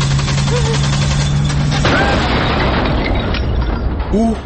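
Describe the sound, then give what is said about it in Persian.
A car explodes as it is started after an amateur repair: a steady low hum cuts off abruptly into a loud, sustained blast of rumbling, crackling noise, with brief voices heard. “او حاجی و حاجی خانم ترکیدن منفجر. حالا ما نفهمیدیم این حمله تروریستی بود یا این رفیقمون عینا بود که وقتی ماشین خراب میشه یه پا اوستا کار و تعمیر کار و اینا میشن.”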